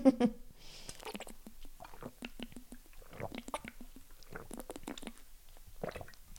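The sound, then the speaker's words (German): A person takes a sip of a drink, with soft wet gulping and swallowing and small mouth clicks, fairly faint and uneven. “Ich muss mal wieder einen Schluck trinken, es ist gerade einfach zu warm, es tut mir leid.”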